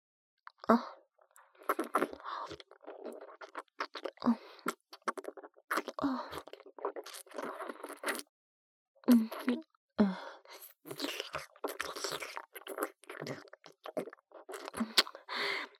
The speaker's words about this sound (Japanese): 唇をペロペロ舐められるの気持ちいい？